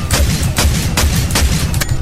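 Gunshots from a non-automatic weapon in a video game, a gun fed from five-round magazines: several sharp, loud shots fired one at a time in a fairly even rhythm, about every half second, over constant low rumble.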